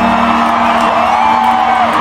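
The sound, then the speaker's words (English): Concert crowd cheering and whooping after a performer pushes a piano over on stage, a dense, loud, continuous roar of many voices with a muddy, distorted quality. “He pushed the piano over. Walks away. And the crowd loved it.”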